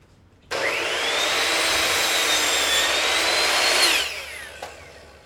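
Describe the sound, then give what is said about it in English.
A miter saw makes one cut through a board trimmed to length. The blade whines up sharply, holds a loud, high, rasping tone for about three seconds, then stops abruptly with a brief spin-down and a small knock. “And so what I'll do is put them on the miter saw now and just cut them to length as they need.”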